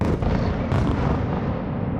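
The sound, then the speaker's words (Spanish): Heavy booming explosions from bombs during an air attack on Kyiv, a loud continuous low rumble with a sharper burst partway through. “Así es como se ven las bombas y así como se escuchan.”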